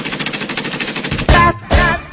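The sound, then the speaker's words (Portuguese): Machine gun fire as a sound effect in an electronic dance track. Rhythmic music plays first, then loud, harsh bursts of rapid fire come near the end. “Ele tá zangado, tá querendo falar, já tá todo armado, tá pronto pra atirar. Pega a metralhadora.”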